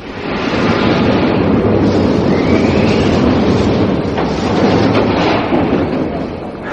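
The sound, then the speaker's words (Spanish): A metro train entering a station: a loud, steady rumble and rhythmic clatter of wheels on rails, with a faint high wheel squeal partway through and the noise easing slightly near the end. “En la estación hizo su entrada un tren.”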